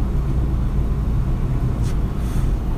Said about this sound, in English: I'm rolling my window down because I'm smoking